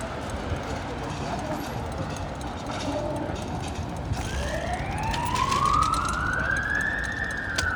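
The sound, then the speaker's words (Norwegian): A siren wails along an Oslo city street, its tone climbing steadily through the final few seconds above a dense, continuous rumble of street noise. “Lyden av Oslo. Sirene til å være til.”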